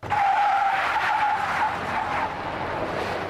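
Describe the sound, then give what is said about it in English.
Tires squeal as a new electric Hummer is test-driven in Michigan. A loud, high screech rides over the vehicle noise for about the first second and a half, then gives way to a steady rolling rumble. “Since the passing of his landmark infrastructure plan, Biden's been taking a victory lap, literally. Here he is in Michigan testing out a new electric Hummer.”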